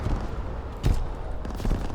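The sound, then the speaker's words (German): Video game gunfire in an online shooter with light machine guns, a few sharp bursts of shots, the loudest near the middle, over continuous rumbling battle noise. “Schießen halt feucht fröhlich durch das Volk und da kannst du nichts machen.”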